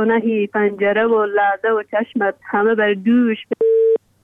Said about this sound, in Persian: قطع شد.